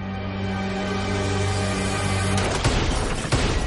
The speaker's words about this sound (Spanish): El tendero cae al suelo con varios impactos de bala en el cuerpo.